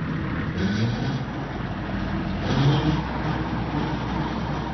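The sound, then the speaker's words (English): A farm tractor engine, used to dig up rocks and plow in Michigan, runs with a steady, dense rumbling drone that swells slightly a couple of times, with no voices over it. “A tractor. I told you it wasn't silkworms.”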